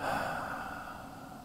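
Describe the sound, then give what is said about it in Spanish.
A deep exhale during a guided breathing exercise makes a soft, breathy rush of air that starts strongest and slowly fades over about one and a half seconds. It is fairly faint, with no talk over it. “Vamos a respirar tres veces. Profundo. Uno, dos, tres. Sosténla. Exhala.”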